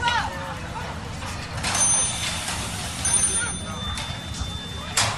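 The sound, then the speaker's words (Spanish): Intermittent high-pitched electronic beeping from a self-contained breathing apparatus alarm running low on oxygen during a rescue search at a house, sounding over a steady low rumble and background noise. “Debe ser un equipo autónomo que estaba sonando ahí que se empieza a quedar sin oxígeno.”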